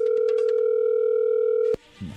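A telephone line tone holds steady while a number is dialed, with a few short clicks early on. The tone then cuts off abruptly on a sharp click, followed by a faint low rustle.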